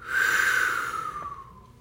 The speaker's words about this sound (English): Take another breath. Hold it. Hold it. Let it out slowly.